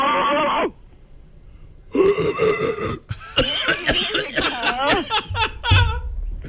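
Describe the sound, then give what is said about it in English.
A voice does a vocal exercise, barking like a dog on an inhaled gasp. It makes a series of rough, raspy bursts, some squeaky and rising or falling in pitch, loud and uneven after a short vocal start. “When you bark like a dog, I want you in an inhale gasp. So it's going to sound like this.”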